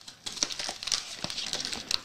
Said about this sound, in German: Okay, also wir haben außen keinen Zipper. Hier steht Lift to Open. Ja, dann lifte mal.